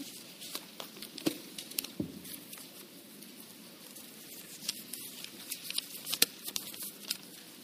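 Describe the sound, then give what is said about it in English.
Paper envelopes being picked up and small cards pulled out by an audience, producing many soft overlapping rustles, crinkles and light taps at a fairly quiet level with no one talking. “There are envelopes. Pick up. Everyone should have an envelope. Pick it up. There's a little card with it. Take that card out.”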